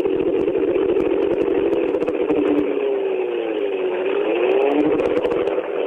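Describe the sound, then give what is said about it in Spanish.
A racing car engine runs at under a quarter throttle in Berlin, spinning the rear tyres on a stand to warm the transmission. The drone is loud, dense and continuous, and its pitch wavers slightly throughout. “Ahí está, menos de un cuartito de acelerador. Apenitas para que giren los neumáticos traseros, para que se vaya elevando la temperatura de todos los elementos de la transmisión.”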